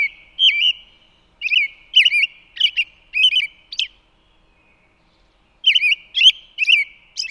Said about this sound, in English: this track has these nice caroled notes that we heard in track 12, but then punctuating a little sequence of these nice low caroled notes is a high-pitched little tinkling sound.